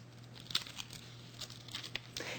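Stickers peel off a paper page of notes and tear at it, giving soft crinkling and ripping rustles in several brief, faint bursts.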